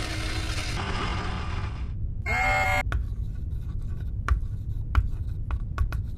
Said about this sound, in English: There must be a pen or marker I can use in here. Here we are. I will write it on the wall.